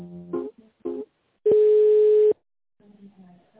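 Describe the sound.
A telephone line tone plays while a call is being transferred: one steady, even hum lasting just under a second. Brief, softer tonal sounds come before and after it.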